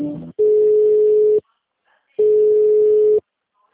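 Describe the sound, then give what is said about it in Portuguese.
Telephone ringback tone while a call is being transferred: two long, steady, even-pitched tones of about a second each, separated by a short silent pause, with a brief bit of sound just before the first tone. “Aguarde um instante que vou transferir sua ligação para o setor responsável.”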